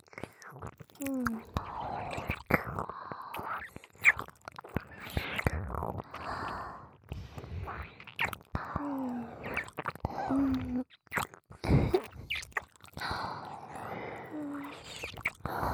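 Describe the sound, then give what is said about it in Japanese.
Wet ear-licking and mouth sounds for ASMR: many soft, moist clicks, smacks and slurps in uneven bursts, interspersed with quiet whispering. “この耳、私がいっぱいレロレロしてあげますから、気持ちよくなってくださいね。”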